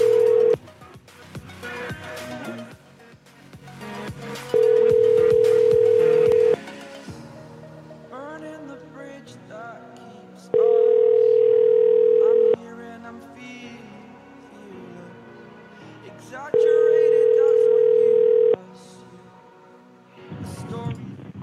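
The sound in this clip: Ringing tone on an AT&T phone call: three long, steady tones of about two seconds each, evenly spaced by pauses, with other, noisier sound at the start and end.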